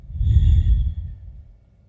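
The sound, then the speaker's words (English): A deep breath taken during a guided reflection, heard as one low, breathy rush of air that swells and then gradually trails off in under two seconds, with no talking. “Take a deep breath.”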